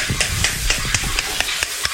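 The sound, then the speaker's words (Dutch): A spoon tapping a pomegranate in a neighbourhood kitchen: many dull, evenly spaced taps at a quick steady rhythm over a constant bright hiss. “Wat klopt u daar? Een granaatappel. Ik klop een granaatappel.”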